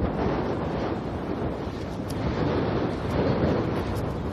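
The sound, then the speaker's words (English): Wind blasting into the microphone outdoors on a cold day, heading north straight into a headwind. A dense, steady low roar buffets without a break for the whole stretch, with no voices. “The wind I made the turn north, and now I've got the wind right in my face again.”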